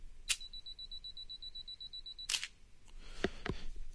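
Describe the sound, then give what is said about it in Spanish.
An SLR camera on a tripod fires using mirror lock-up combined with the self-timer. A press click starts about two seconds of rapid, high-pitched timer beeps, then the shutter fires with a sharp clack, followed by a few more soft mechanical clicks. “¿Qué fue eso? Cuando hice clic, la cámara la montamos en un tripié, ¿no? Cuando hice el clic,”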